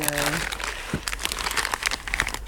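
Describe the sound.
Packaging crinkles as a package of glass fragments is opened, with quick crackly rustles and a voice talking alongside.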